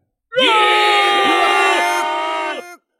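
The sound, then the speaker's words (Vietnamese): A massed crowd of voices gives deafening battle cries of an ancient war, roaring in one loud, sustained yell with several dipping pitches before cutting off abruptly. “từ bên trong đang truyền ra những tiếng la giết đinh tai nhức óc, cuộc đại chiến tiên cổ tựa như được tái hiện lại”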